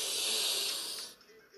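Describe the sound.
A slow inhale through the nose during a guided breathing exercise: a soft, airy hiss holds steady for about a second, then tapers into near quiet.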